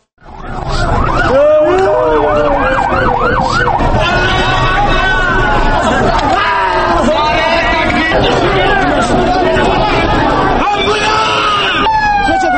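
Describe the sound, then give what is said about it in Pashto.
Ambulance sirens wail at the site of a suicide bombing in Kabul, several rising and falling tones overlapping loudly and continuously, over a steady babble of people's voices. “دغه رپورټ د امبولانسونو په ژغ او د خلکو په وازنو پیل کیږي.”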